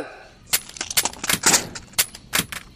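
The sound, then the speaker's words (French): Machine gun fire sound effect for a battalion firing from an ambush on emus: a rapid, irregular series of loud, sharp cracks in short bursts. “Le bataillon se poste en embuscade, prêt à faire feu. C'est le moment décisif. Feu”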